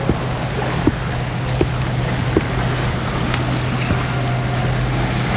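Seaside ambience on the Estérel coast, where the sea meets the mountains: a steady wash of waves and wind with a low, constant engine-like drone beneath it and a few faint clicks.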